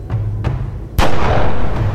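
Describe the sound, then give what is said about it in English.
A pistol shot from the snowy duel between Pushkin and d'Altès: one loud, sharp crack followed by a rumbling tail. A couple of faint, soft knocks come just before it. “The first shot cracks, fired by d'Altès. His bullet hits Pushkin in the stomach.”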